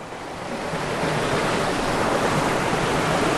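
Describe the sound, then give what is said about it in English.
Roar of a massive waterfall in Scotland, a dense rushing wash of water noise that swells slightly over the first second and then holds steady and loud, with no voices. “I don't know how I'm going to get down to this waterfall. It's massive. It's not something you can just climb down. It's absolutely monstrous.”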